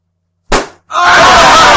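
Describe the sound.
A person is hit hard on the forehead: a single sharp, loud smack that fades quickly, then a sustained, harsh, loud burst of noise.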